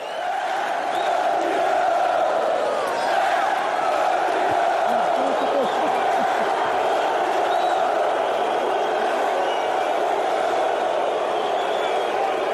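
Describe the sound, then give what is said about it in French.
A fight crowd cheers for José Aldo in a sustained, loud roar of many voices that stays steady and unbroken throughout. “Ouais, et là vraiment c'est le champion du peuple, José Aldo. Écoutez, écoutez, écoutez ce public.”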